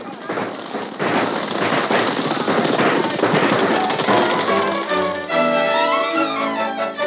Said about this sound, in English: Robbers got away after a running gun battle, and with them went $5,000 from the vault of the Bank of Wellston.